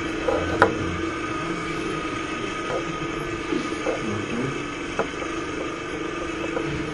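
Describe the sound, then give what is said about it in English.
Small motor of a gas chamber on a mink farm running, a steady, even hum that carries throughout, with a few faint knocks and clicks over it. “That little motor you can hear is actually the gas chamber operating.”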